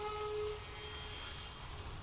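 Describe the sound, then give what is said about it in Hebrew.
Rain falls in a soft, steady hiss of dense patter, quiet throughout, with a sustained flute tone sounding over it for the first half second. “יש פה קצת גשם, גשם וחליל.”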